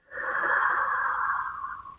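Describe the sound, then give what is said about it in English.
A slow breath during a guided breathing exercise: one long, airy, hissing breath swells quickly and then fades gradually, soft and alone. “Allowing your inhale and relaxing your exhale.”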